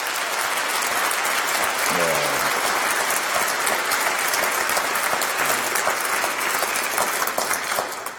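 An audience applauds to welcome a synagogue student group, a steady, loud roar of clapping that holds evenly throughout and eases slightly at the very end.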